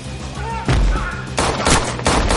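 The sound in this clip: Gunshots in an action film fight in John Wick: Chapter 2 as a hitman shoots several men: four loud, booming shots in quick succession after a brief low-rumbling lead-in.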